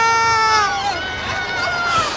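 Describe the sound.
A crowd in a packed street shouts and cheers as the Pope appears, with high, wavering screams rising over a dense babble of voices.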